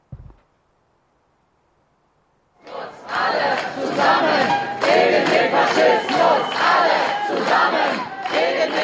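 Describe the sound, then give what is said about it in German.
A crowd at a counter-demonstration against a far-right party's campaign kickoff outside a church roars with loud, continuous shouting and chanting. It breaks in suddenly after a brief thump and a couple of seconds of near-silence, then holds steady and dense. “Wir hören ein paar Eindrücke davon, von diesem Auftakt und dem Protest dagegen.”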